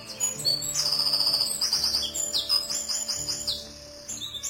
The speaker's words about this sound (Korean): 가지 사이에서 파랑새가 지저귀고 있었다.